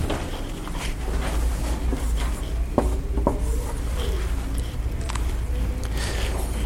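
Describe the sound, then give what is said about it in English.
A permanent marker draws on a dry erase board, giving a few faint scratchy strokes over a steady low hum. “This is a dry erase board, and this is a permanent marker. I am not supposed to draw this on here because it won't come out.”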